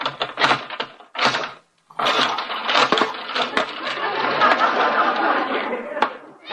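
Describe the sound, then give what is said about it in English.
A front door being unchained, unbolted and unlocked: a few sharp clacks and clunks, a brief pause, then a sustained rattling, scraping clatter with more hard knocks. “He has unchained, unbolted, and unlocked his front door and is welcoming his guests.”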